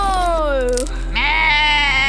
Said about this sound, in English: Oh, what a scream. That's gotta hurt. Ah, yep. The nettle stung the goat.